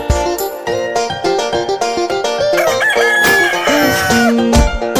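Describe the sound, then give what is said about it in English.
A rooster crows, a drawn-out tonal call over busy, loud music from a children's song. “What's wrong, Mr. Rooster? What are you looking for? Cock-a-doodle-doo.”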